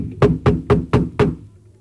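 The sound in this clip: Knocking on a classroom door: five firm, evenly spaced knocks in quick succession, with no voices.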